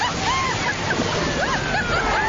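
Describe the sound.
Waves splashing in a wave pool: a continuous broad wash of sloshing water, with people's voices calling out over the noise.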